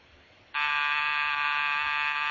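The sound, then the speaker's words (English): A front door buzzer cuts in suddenly after half a second of quiet and holds a loud, harsh, unbroken electric drone at one steady pitch until the end. “was that the front door buzzer?”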